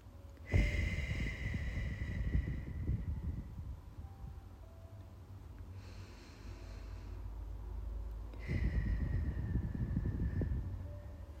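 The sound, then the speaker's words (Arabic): Two slow, breathy exhalations through the nose or mouth during a guided breathing exercise. Each is soft and airy, and a long quiet pause separates them. “بنفع نطلع من مناخيرنا، بنفع من تمنا، حسب شو مريح لإلنا.”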